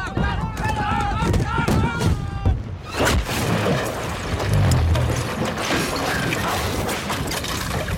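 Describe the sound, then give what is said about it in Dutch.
A cannon fired on a ship: one sharp, heavy boom midway through, then a long rumbling, crackling wash of noise. Raised voices come before the blast. “En dan ziet hij plots een grote vuurflits. Er wordt net een kanon afgevuurd.”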